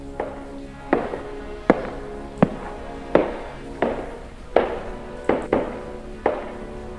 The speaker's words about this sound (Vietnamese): Tiếng bước chân của chị vang lên trên hành lang.